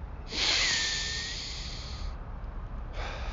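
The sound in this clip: A deep breath drawn in and let out during a breathing exercise. One long, airy hiss swells and slowly fades, and after a short pause a second breath begins. No talking is heard.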